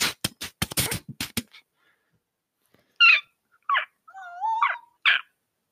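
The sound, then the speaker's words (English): A small cluster of tiny summoned foxes in a video game yips and whines in several short, high calls, one with a wavering whimper. They follow a quick burst of sharp percussive hits and a brief silence. “First off, you summon your small cluster of foxes, and about 8 tiny little foxes with giant ears pop up.”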